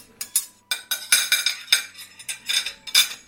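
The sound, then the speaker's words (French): Clinks and clatter as a plate, knife and fork are picked up in a kitchen after cooking an omelette, many sharp metallic and ceramic taps in quick, irregular succession. “Je prends assiette, couteau, fourchette.”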